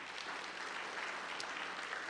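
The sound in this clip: Audience applause from an audience at a church service, a steady and even wash of many hands clapping that holds at the same level throughout, with no voices standing out.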